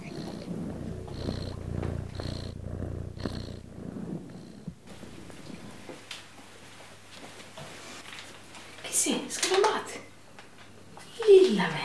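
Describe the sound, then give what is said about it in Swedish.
A cat purrs in a steady, low, rhythmic rumble that is clearest in the first few seconds, while a person speaks softly and fondly over it, with some brief louder rustling near the end. “Och så spinner du så skönt. Ja, så spinner du.”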